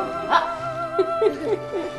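A dog gives a few short, high whimpers and yips, each a thin whining note that bends in pitch, over a steady low hum.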